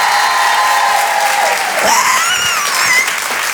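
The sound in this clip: Loud, steady applause and cheering from the audience at a stage show after the women in the crowd are asked to make noise. The clapping rolls on evenly throughout, with a few higher cheering voices rising above it.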